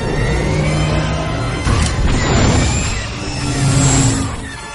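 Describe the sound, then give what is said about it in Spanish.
A spaceship takes a hit in a science-fiction film. A loud, dense crash and roaring rumble fill the whole stretch, with a sharper impact near the middle. “El halcón recibe un impacto.”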